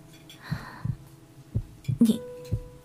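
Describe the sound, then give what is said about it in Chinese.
Soft, low heartbeat thumps recur in a steady rhythm, faint and muffled, with a quiet hum beneath them. “在这一瞬，温以凡清晰地听到自己心跳的声音。”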